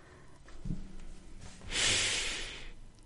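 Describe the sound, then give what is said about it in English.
Someone takes a deep breath in, then gives a longer, fuller exhale during a guided breathing exercise. Both breaths are soft and airy, with the breath out louder and broader than the breath in. “One more deep breath in, one more exhale.”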